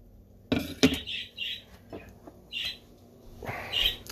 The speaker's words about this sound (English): That's my bird. That bird is like 11 years old. It's a parakeet.